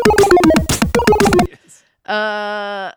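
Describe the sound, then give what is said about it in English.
A phone notification ding rings out as one sustained, bright electronic tone with a steady pitch, lasting under a second and sounding alone just after a burst of lively talk. “That was my phone. That's the big news ding.”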